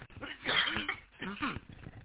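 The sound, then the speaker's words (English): Two harsh coughs over an amateur radio contact, thin and band-limited in tone, each a broad rough burst separated by a short dip. “Sorry about that. I didn't mean to cough down in your ears.”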